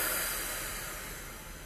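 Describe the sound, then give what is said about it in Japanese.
Deep breathing during a voice-training breathing exercise, heard as one steady, breathy hiss lasting under two seconds that fades slightly, with no voices. “深く吸って、吐く。ラスト吸って、吐く。”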